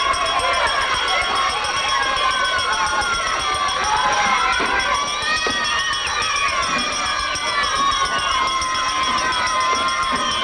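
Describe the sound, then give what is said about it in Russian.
A crowd of children runs into a school amid loud, dense shouting and excited chatter. Many overlapping voices keep up a steady roar throughout. “Толпа детей вбегает в школу.”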